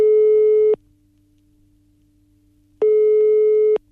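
A telephone ringback tone plays while a call is being placed: a steady single-pitch tone sounds, cuts off into a long quiet gap, then sounds again for about a second. It is loud and heard alone.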